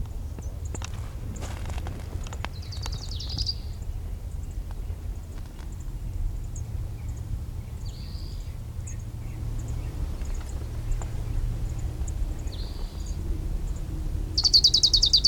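An orange-crowned warbler singing on a canyon divide: a few short, high trilled bursts spaced several seconds apart. They are faint over a steady low rumble, and the last one is louder.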